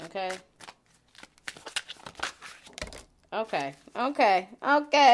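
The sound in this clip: Cards are pulled from a deck in quick papery snaps and flicks, between stretches of a person talking.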